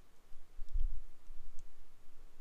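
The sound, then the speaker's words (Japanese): Faint clicks from pressing the share button in the middle of a game controller, one brief snap with a low thump and another light tick shortly after, with no talking. “このシェアボタンですね。これあの、真ん中にこう、あるんですけど、ちょっと押しづらいかな。”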